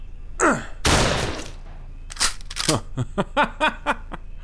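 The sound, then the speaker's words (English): Gunfire in an audio drama: a loud sharp crack, then after a pause a rapid string of many short, punchy shots with sweeping ricochet-like tails. “I think I might have actually hit him. Well, he should have thought about that before he started shooting at us.”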